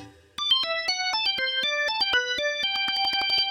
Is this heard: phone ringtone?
yes